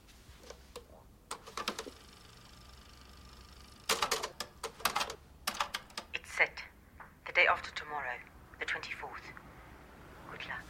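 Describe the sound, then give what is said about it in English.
Keyboard typing: a few scattered bursts of quick, light clicks, partly under people talking. “Jack types as Marion watches”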